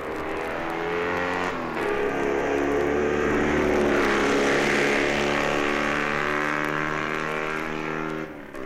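Racing motorcycle engines roar on a circuit as BSA, DMW and Triumph machines start their last lap, a loud, continuous droning whine with rich harmonics holding steady throughout.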